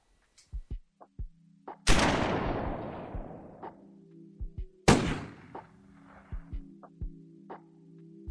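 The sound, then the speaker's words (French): Gunshots fired at a character: two loud, sharp blasts, each trailing off in a long fading roar. Many smaller sharp clicks and knocks are scattered around them over a steady low hum. “me tirer dessus, ça ne résout rien. Je suis un peu immortel et vous n'avez aucune chance de me tuer.”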